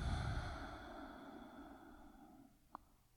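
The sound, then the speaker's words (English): A deep breath is exhaled fully during a breathing practice. A long, breathy sigh-like exhale starts strong and fades gradually over a few seconds, followed by a brief faint click. “Inhale all the way. Exhale everything out.”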